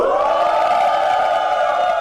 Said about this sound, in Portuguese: Mas como não teve gol, não interessa, tomam vaia!